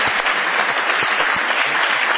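An ovation from a crowd in a small warehouse venue on Gorriti Street, with dense, vigorous clapping that stays loud and even across two seconds.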